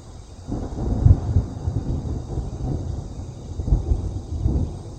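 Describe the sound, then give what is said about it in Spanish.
Thunder rolls as a low, sustained rumble that swells louder twice, with a steady hiss above it and no voices. “Es un trueno de nada. Eso no significa que vaya a llover justamente ahora.”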